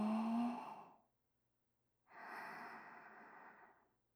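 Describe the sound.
A deep breath during a guided breathing exercise: a soft, partly voiced breath lasting about a second, a pause, then a longer, airy breath of about two seconds that fades out. Very quiet, with no talking.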